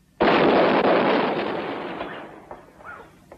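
Gunfire and artillery from a film's cavalry attack: a sudden loud massed blast that holds as a dense roaring burst, then gradually fades over a couple of seconds.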